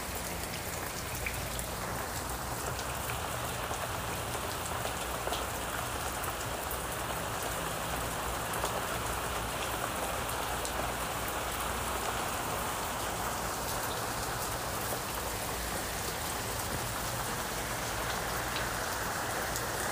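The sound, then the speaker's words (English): Rain falls in a steady, dense patter of countless drops striking a surface, an even hiss that holds at constant loudness throughout with no pauses or other sounds. “Listen to the rain or the waves of the ocean and let it put you to sleep.”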